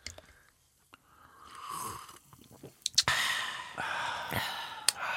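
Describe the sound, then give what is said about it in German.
People drinking during a silent pause: quiet sips and swallows with breathy sighs and exhalations, soft and irregular, with no talking. “er wollte doch mal einmal so eine ASMR-Pause machen und alle einfach nur trinken und nichts sagen.”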